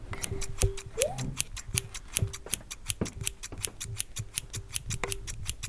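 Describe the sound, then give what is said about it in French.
Scissors snip repeatedly in a nursery-school class. Many crisp, faint clicks follow one another in a fairly steady rhythm, with a light metallic ring under some of them. “Le bruit mystère, c'était le ciseau.”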